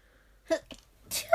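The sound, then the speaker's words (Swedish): A sudden sneeze from a person in the middle of a casual conversation. A few brief breathy catches come before one sharp, loud, voiced burst. “ursäkta, nu måste jag nysa”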